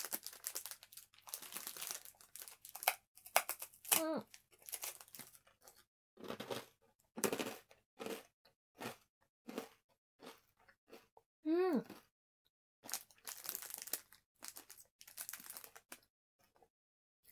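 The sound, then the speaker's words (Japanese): A hard Japanese rice cracker crunching in many short crisp bites, mixed with crinkling of its wrapper, with a couple of brief vocal sounds in between. “久々にこういうしっかりしたおせんべい食べるかもしれない。おいしいね。”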